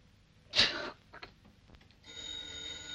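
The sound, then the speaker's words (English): A telephone ringing in a 1937 film: a short, bright ring burst, then a sustained, faint high ringing tone toward the end, over quiet background. “She may have just been fired, but she's still on the payroll, so Martha answers the phone.”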